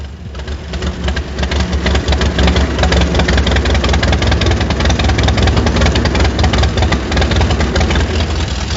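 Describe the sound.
A hand-cranked engine catching and running, swelling quickly at the start into a loud, steady chugging with dense, rapid knocking pulses and a deep rumble, with no talk.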